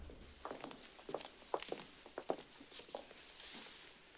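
Footsteps of two people walking up to a judge's bench in a courtroom: a faint series of soft, irregular steps over a steady background hiss, with no voices.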